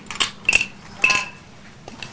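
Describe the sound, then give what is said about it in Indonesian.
Dishes clinking while being washed, with a few sharp, bright clinks and a brief ringing tail, followed by a fainter knock. “Cuci piring.”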